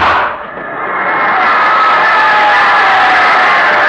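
A football crowd cheers as a radio comedy sound effect: a loud, continuous roar that dips briefly at the start, then swells back and holds steady to the end.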